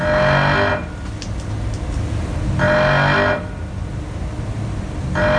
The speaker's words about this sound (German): Damit das Fahrzeug nicht schief hängt, wenn zum Beispiel alle Fahrgäste auf der rechten Seite sitzen, gleicht das Fahrzeug zwischen den Luftbälgen hin und her aus. Und das klingt so.